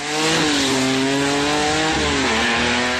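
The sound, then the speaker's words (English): Street-legal drag racing cars roar at a drag strip during a night of racing. The engine note is loud and continuous, with a strong tone that holds steady, then dips lower for a moment before settling again. “every drag strip has its roar. In Brainerd, last night was the last street legal drag racing night of the season.”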